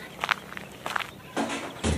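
A man walks away through a park, leaving a few dull, uneven footsteps, with slightly louder scuffing steps toward the end and no voices.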